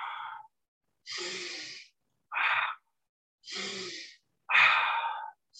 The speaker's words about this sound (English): You're going to go full inhale. And then you're just going to relax. And then another inhale. And then a relax.